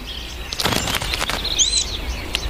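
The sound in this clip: Bluebird chicks calling outside their tree-hole nest: a few brief, high chirps rise out of a steady hiss, with fainter scratchy bursts scattered around them.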